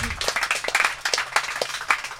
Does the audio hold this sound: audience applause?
yes